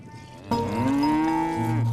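A dairy cow on a herders' pasture gives one long moo that starts abruptly and holds a low, droning tone before tapering off.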